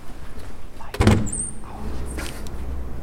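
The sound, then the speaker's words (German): A dusty wooden cabinet by a church altar is opened with one solid, hollow clunk, followed by a faint creaking rustle against a low background hum. “Er läuft auf den Altar zu, öffnet einen verstaubten Holzschrank.”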